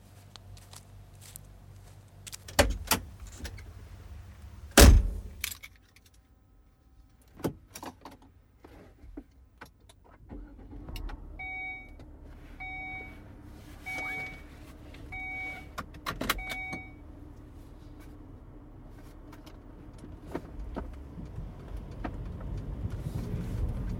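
A car being started and driven off: a few clunks and a sharp knock early, then a steady low engine hum with a repeating electronic chime for several seconds, the engine noise building gradually toward the end.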